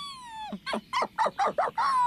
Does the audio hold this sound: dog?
yes